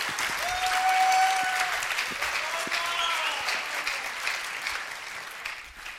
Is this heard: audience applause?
yes